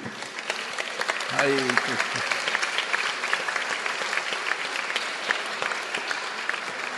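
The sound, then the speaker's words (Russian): Steady applause from the audience at a spiritual gathering, dense and even clapping throughout, with a voice briefly rising above it near the start. “И давайте поприветствуем аплодисментами.”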